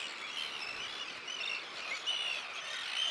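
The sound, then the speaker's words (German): Seabird calls from a large breeding colony nesting on an old pontoon on the North Sea coast: a dense, continuous chorus of high, overlapping chirps and cries at steady loudness. “435 Brutpaare bauen in diesem Jahr auf dem alten Ponton ihr Nest.”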